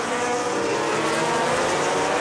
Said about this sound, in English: as the bikes come down, they really have to be careful picking up the throttle